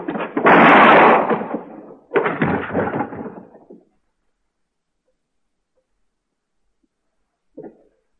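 Gunfire from a gun drawn in a showdown with a marshal: two heavy blasts in quick succession, each trailing off in a long rumble, then silence and one brief faint sound.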